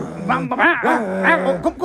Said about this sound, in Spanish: Mira, el perrito está muy, muy, muy, muy rabioso.